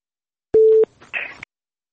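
A telephone busy tone after a caller's line disconnects: one steady mid-pitched beep, followed by a short burst of crackly line noise, then silence.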